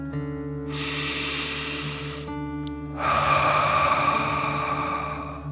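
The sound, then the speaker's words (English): Deep breathing in and out, heard as two long, airy breath sounds. The second is louder and fuller than the first, with a soft steady tone underneath. “take another 3 deep dragon breaths. Deep breath filling up your chest and belly, in and out.”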